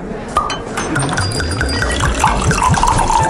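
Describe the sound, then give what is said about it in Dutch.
Drinks poured on a cosy evening in a wine bar: steady liquid splashing and filling runs throughout, with a few light glassy clinks mixed in and no voices. “Dat is het geluid van een gezellige avond in Wijnbar De Proeverij.”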